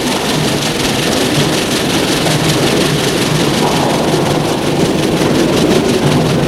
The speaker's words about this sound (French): Le train arrive en gare.